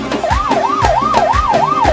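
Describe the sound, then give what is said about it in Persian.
An ambulance siren wails in a rapid, loud rise and fall, repeating about four times over a regular low thumping beat. “یه تیگه آمبولانسی بیا پشتش به افتخارش.”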